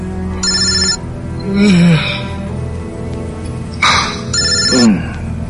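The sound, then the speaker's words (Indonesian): A mobile phone rings with an incoming call at night, its bright electronic ringtone sounding in two short bursts over a low, steady background. “siapa sih? Ada panggilan masuk. Kulihat di handphoneku ada nomor tidak dikenal.”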